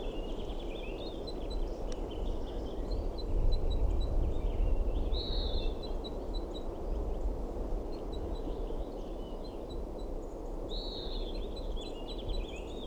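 A female crossbill at a nest on a branch about 3 meters away makes begging calls: many faint, high, rapidly repeated chirps over a steady low rumble.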